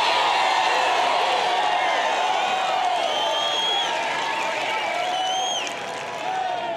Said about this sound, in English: We actually brought a live studio audience so that way you can tell your story of how you became an audio engineer. So if you guys in the studio, make some noise.